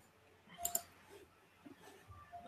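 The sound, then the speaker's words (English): Two quick, faint computer mouse clicks sound close together as someone clicks on a chat window. A few softer, fainter noises follow in otherwise quiet surroundings. “Oh, I hate how you have to always click the stupid chat thingy.”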